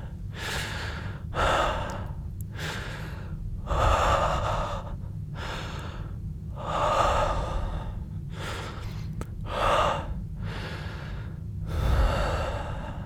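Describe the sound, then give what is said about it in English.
Close, soft breathing into someone's ear, heard alone as many slow, rhythmic breaths. Each one swells and fades, with quiet pauses between them. “Or breathe in your ear like this again.”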